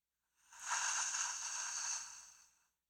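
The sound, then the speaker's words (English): One slow, deep breath through the mouth comes as a single soft, airy whoosh that swells and fades over about two seconds. It is faint, with no talk, and is part of a guided breathing exercise. “Let's take some deep rounds of breath together. So inhale fully, fill up your belly. Exhale fully, open your mouth. Let the belly pull back. A few more times.”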